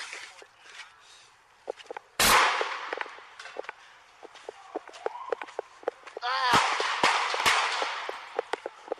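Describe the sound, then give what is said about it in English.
Gunshots captured on a police body camera: one sharp, loud bang, then after a long pause a few more bangs, over a steady bed of rustling and small clicks. “And then you can hear the shots being fired.”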